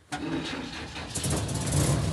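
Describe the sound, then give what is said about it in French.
An old vehicle's engine is started with a pull cable and catches at once, settling into a steady, rough, loud running drone that lasts to the end. “Démarrage au câble.”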